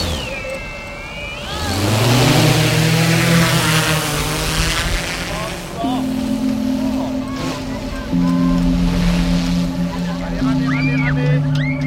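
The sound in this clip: An autopiloted drone taking off from a sandy beach under pine trees: its motors spin up with a rising whine, then hold a loud, steady buzzing hum that shifts pitch in steps, over constant rushing noise.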